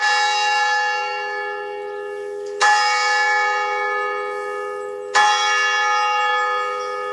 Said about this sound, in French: il est l'heure de sonner l'Angélus au clocher de Radio Espérance